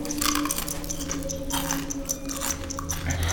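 Crunchy chewing of a mouthful of cornflakes, a dense run of crisp, moist bites and munches that carries on steadily with no pause, over a low steady hum.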